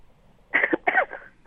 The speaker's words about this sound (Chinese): 哇，咳嗽了。